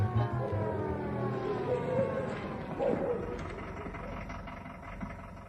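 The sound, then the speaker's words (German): Siren of a black-and-green Mercedes 220 police car, heard from afar as it arrives, a wailing tone whose pitch glides in long sweeps over a steady low rumble for several seconds. “Ihre Sirene war ja schon von weitem zu hören.”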